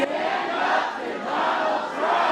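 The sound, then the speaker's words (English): A crowd of constituents at a town hall in a convention center shouts together while recording a video for a congressman, making a loud, dense roar of massed voices that stays steady without pause. “That was the sound of former Governor Jay Inslee recording a video with constituents to send to Congressman Dan Newhouse.”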